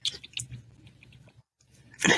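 Small, sharp, springy snips cut with quick, crisp clicks. A few light snips come first, then a louder burst at the end.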